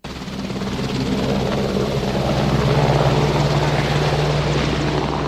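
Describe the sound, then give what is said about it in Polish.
An AW101 multirole helicopter from the Świdnik aircraft works flies in a loud, steady rotor drone with a deep hum that swells over the first second and then holds constant, with no voices. “Zakłady lotnicze ze Świdnika po raz pierwszy w Polsce pokazały wielozadaniowy śmigłowiec AW-101.”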